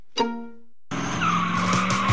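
Tires squeal loudly as drag racing cars skid at a street drag race on historic Route 66. A brief tonal hit comes first, then a sustained shriek of rubber over engine roar.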